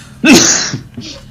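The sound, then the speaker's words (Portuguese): An allergic cough: one sharp, loud, breathy burst followed by a softer, shorter second cough. “Peço muito imensa desculpa, mas esta minha proverbial tosse alérgica prega-me destas partidas”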